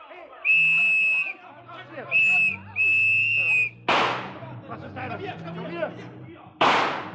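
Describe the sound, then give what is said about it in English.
Gunshots ring out in a radio drama adaptation of The Third Man. Two sharp, loud bursts crack over sustained whistling musical tones and busy background sound. “Suddenly there was a gun in his hand. Sergeant Payne was in front of him now. Harry fired once, but he never stopped moving.”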